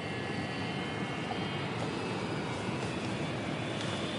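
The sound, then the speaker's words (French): An airplane taking off and rolling down the runway gives a steady, dense engine roar that stays even in loudness throughout, with a faint thin high whine running above it. “Ça y est, on décolle. Enfin, j'espère. Bon, bah ça va. Il roule bien longtemps, je trouve.”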